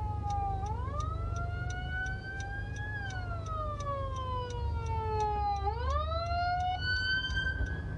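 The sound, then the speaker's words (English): Emergency vehicle sirens heard from inside a car wail in long, slow sweeps, rising and falling steadily over the low rumble of the car. “And if you can hear those sirens in the background, I am recording this in my car.”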